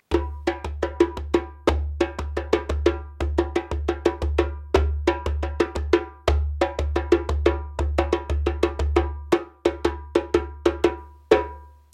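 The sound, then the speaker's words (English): A djembe, a big wooden African hand drum, played in a brisk, steady rhythm of many strikes that mix deep booming bass tones with sharp, bright slaps. “This is called a djembe. It comes from Africa. It sounds like this.”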